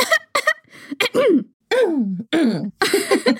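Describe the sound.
A voice imitates expressive throat clearing: a rapid series of short, throaty 'ahem'-like bursts, several with sliding, swooping pitch, fairly loud and broken by brief pauses.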